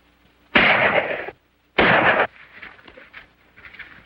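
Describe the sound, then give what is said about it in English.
Two loud pistol shots ring out about a second apart, each a sharp crack with a long decaying tail, followed by faint low rustling. “Tugs on the line. A pistol fires. The riders stop, confused.”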